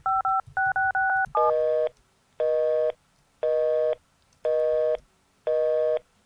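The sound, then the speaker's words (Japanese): Keypad tones from dialing a house telephone in a video game: a quick run of short beeps, then a busy signal that pulses five times at even intervals, with no talk. “適当に今番号を押したんだけど”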